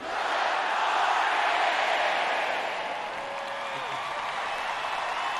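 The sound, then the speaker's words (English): An audience cheers together to greet astronauts aboard the International Space Station. A dense, sustained roar of voices and shouts holds steady throughout, easing slightly partway through. “Bill and Valeri, we have a greeting for you from all the audience here.”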